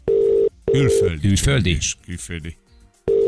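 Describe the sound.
A telephone ringing tone sounds while a radio listener is being called: steady, mid-pitched bursts of tone at the start and again at the end, with people talking in between.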